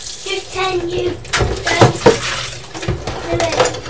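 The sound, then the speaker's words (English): Dishes clatter and clink as they are washed up in water, with a few sharper knocks in the middle. People talk over the washing-up. “So, I'm helping to wash up, am I?”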